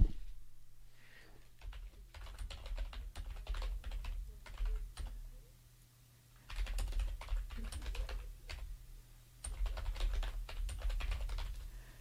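Rapid keystrokes on a computer keyboard arrive in quick, soft bursts separated by brief pauses, with a longer lull midway before the typing resumes at a steady clatter.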